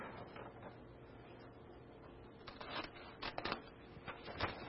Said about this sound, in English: And we're going to have, like the scissors shows, we're going to cut out 490 days from it. So we'll just do a live demonstration. So we're going to snip.